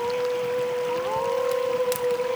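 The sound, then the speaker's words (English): Coyotes howling: a sustained, steady tonal wail with a higher overtone. It bends slightly upward partway through and holds level for the whole stretch. “Are those wolves? No, coyotes.”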